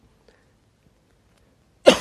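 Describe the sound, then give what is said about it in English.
A single sharp cough from someone recovering from a cough bursts out loudly at the very end, after almost two seconds of near silence. “I'm just coming off a cough.”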